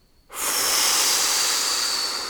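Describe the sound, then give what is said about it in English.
A big deep breath blown out forcefully, a steady breathy rush of air that starts suddenly and holds for about two seconds, fading slightly at the end, with no talking. “So I invite you now to breathe through your nose with a big, deep breath and blow.”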